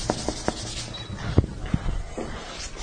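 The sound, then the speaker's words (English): Eraser rubbing writing off a board during a Bible teaching session, a few short scrubbing strokes and soft scrapes in an irregular rhythm at moderate loudness. “I'll leave this put up. I'm going to erase this part.”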